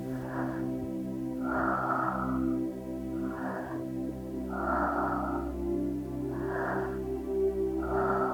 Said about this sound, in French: Inspirez, relâchez. Inspirez, relâchez. Ça part du ventre, ça monte dans la poitrine et on relâche.